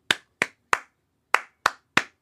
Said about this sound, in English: your job is to clap back the rhythm of the words that I say